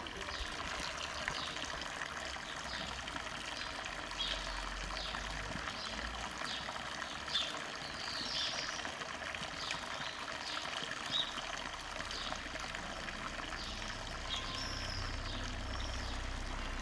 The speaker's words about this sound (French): C'est des champignons. Je suis en train de les laver parce qu'il y a des bestioles dessus.